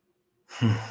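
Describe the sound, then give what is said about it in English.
A deep breath drawn in after near-silence, swelling into a single full, breathy sigh that holds its volume and slowly eases off at the end. “I invite you to take a breath with me.”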